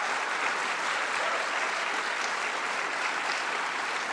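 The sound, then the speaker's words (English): Applause from a live audience at the Stevie Eller Dance Theater, University of Arizona, in Tucson: dense, steady clapping that stays loud and even from start to finish, with no voices standing out. “And as you hear, thanks to member station KUAZ, here in Tucson we have a live audience with us.”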